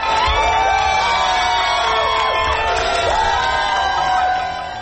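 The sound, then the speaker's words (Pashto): A crowd in America cheers the announcement of Biden's election win, with dense, continuous cheering and many overlapping high whoops and shouts, loud throughout and easing slightly at the very end. “هاخوا په امریکا کې د اعلان ته خلکو په خوښیو هرکلی کړی.”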